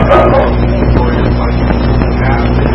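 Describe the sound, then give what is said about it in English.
A dog barks through a loud, continuous bed of noise that stays at an even level throughout. “dog is barking, something like somebody's here”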